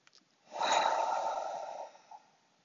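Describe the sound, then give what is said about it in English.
One audible breath taken alone in near silence. It has a sudden airy onset, holds a broad rushing hiss for over a second, then fades out. “Let's take a breath right here.”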